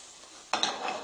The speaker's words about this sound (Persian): یکی دو بار باید قارچ رو زیر رو بکنیم